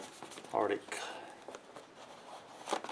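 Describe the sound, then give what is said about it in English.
The box of a Motorola Charm smartphone is opened, with soft scraping and rustling of packaging in a few short bursts, including one louder scuff near the start. “So here's Motorola Charm. Nothing too surprising about the box. Let's open it up.”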